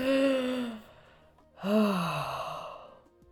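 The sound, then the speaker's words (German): A deep breath taken: two long, audible voiced breaths separated by a short pause, the second swelling and then sliding downward in pitch as it fades. “wir müssen mal ganz kurz einen tiefen Atemzug nehmen”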